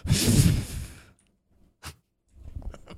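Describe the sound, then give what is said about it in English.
Breaths blown straight into a microphone: a long airy rush of breath, a short sharp puff, then another softer breath, with no talking. “I'm just going to breathe in my mic like you.”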